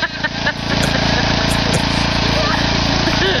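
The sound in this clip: A small engine, started by a woman working its throttle lever, chugs out a steady low buzzing drone after an uneven first half second.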